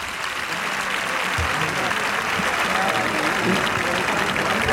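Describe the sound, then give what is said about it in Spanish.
Bullfight audience applauding to encourage the matador, a loud, continuous wash of clapping from a large crowd that stays steady and dense throughout. “No fue con convicción, cogió hueso, pero el público le anima.”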